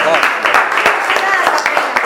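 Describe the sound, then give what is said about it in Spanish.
Applause rises from an audience right after a song, a dense patter of many hands clapping together with voices calling out over it, steady and fairly loud for about two seconds. “Muy bien, aplauso.”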